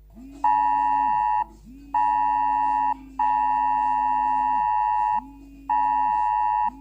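Emergency alert tone for a dangerous weather and flood-risk warning: four loud, steady electronic beeps built from a high tone over a low hum. The third beep lasts about twice as long as the others, with short silent gaps between them.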